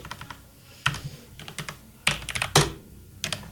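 Keys being pressed on a computer keyboard: many irregular clicks in short bursts, with a few noticeably louder key strikes among fainter taps, no talking.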